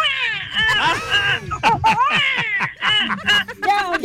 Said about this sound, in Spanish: Ya, mi catirito, ya. Ya no llores más. Ya no más con ese bebé, por favor, ya no más.